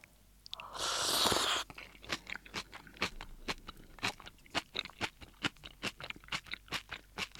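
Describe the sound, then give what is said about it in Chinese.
Crunchy chewing of cabbage cooked in a tomato hotpot soup base bought at a Japanese supermarket. A short noisy burst comes first, then many soft, regular chews follow in a steady rhythm. “我们来看一下它白菜的表现力是什么。”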